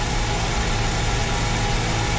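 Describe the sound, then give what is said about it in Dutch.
Racing car engine held on its pit limiter at the Monaco Grand Prix, a dense, loud, unbroken roar at a constant level with no distinct revs and no voices. “Wat kunnen wij hier zien dan? Dat hij op zijn pitlimiter zit. Maar hij wel inloopt, dus hij rijdt gewoon een fractie te hard.”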